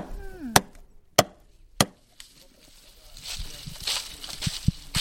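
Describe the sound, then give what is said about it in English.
A woman among the Surui chops through a nut shell to make little beads, landing three loud, evenly spaced strikes followed by several softer knocks. A voice is briefly heard at the start. “She's cutting the shell. And watch. She cuts the shell. Then she makes little beads?”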